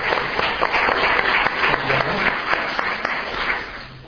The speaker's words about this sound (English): If you'd like to put your hands together, just to welcome Mr. Howard.